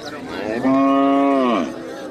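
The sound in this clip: A single long, low cow moo from cattle at a livestock market on the southern edge of Khost, holding a steady pitch for about a second over faint background noise.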